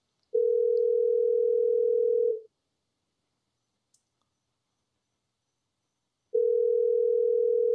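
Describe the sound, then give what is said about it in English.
A telephone ringback tone from an unanswered outgoing call: a steady low tone lasts about two seconds. A silence of about four seconds follows, broken by one tiny click, then the tone returns. “If you're listening in West Palm Beach, pick up right now, okay? Maybe somebody was just calling and they got the wrong number or something. We'll have to call them back. They don't even have an answer machine.”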